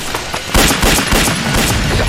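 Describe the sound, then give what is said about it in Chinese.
Gunfire shot to draw a patrol away: a loud, dense, crackling volley of shots that blur into a continuous roar rather than separate clean reports. “我开枪把他们吸引过来了。”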